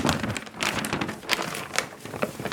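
Crinkling and rustling of a paper world map as it is handled, with a steady run of papery crackles and soft bursts throughout and no voices.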